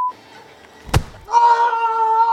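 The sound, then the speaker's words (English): A single hard punch lands in a TV scene where a man hits a ghostwriter in the face, one sharp, heavy smack between stretches of a steady sustained tone. “And that punch was the sound of the Ted Danson character hitting the ghostwriter really hard, maybe breaking his nose.”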